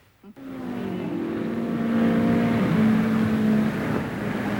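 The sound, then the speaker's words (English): Race car engines drone loudly and steadily during qualifying time trials at Indianapolis Motor Speedway, starting abruptly after a brief moment of quiet and holding a sustained, slightly wavering pitch with no talk. “another day of qualifying here at world-famous Indianapolis Motor Speedway. And let me tell you, newcomers to the automobile racing game, that these time trials out here in Indianapolis are definitely rough, wild, and certainly dangerous”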